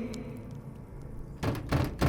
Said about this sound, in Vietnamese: Cánh cửa giống như bị ai đó đánh mạnh vào, rung lắc dữ dội.